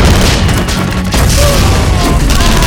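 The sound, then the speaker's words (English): Mortar fire in a battle, heavy booming blasts that merge into a dense, loud rumble, with a few sharper bursts breaking through the continuous roar. “Perkins and McCoughlin got the mortar going, slowly zeroing in on the Red squad directly ahead of them, less than 200 feet away.”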